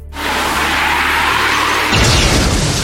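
A video game wing slash attack effect sounds as a loud, sustained rushing whoosh that turns harsher and more textured near its end.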